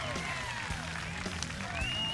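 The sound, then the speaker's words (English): Faint crowd cheering and clapping at a football practice after a receiver's catch, a steady wash of applause with scattered raised voices and shouts riding on top. “Tony Shuffler got behind the defense and hauled in this pass from Hackney, which drew a cheer from the crowd.”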